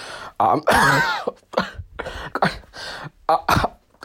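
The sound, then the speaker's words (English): A person sick with a cough and fever gives a series of harsh, rough coughs and throat-clearings. The bursts vary in length, some are throaty and voiced, and short gaps separate them. “Sorry, I've had this cough the last few days.”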